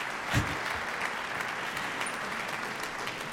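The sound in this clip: Applause from a concert audience after a cello soloist's performance with an orchestra: a dense, even patter of many clapping hands, fairly faint and steady for the whole clip, with no talk over it.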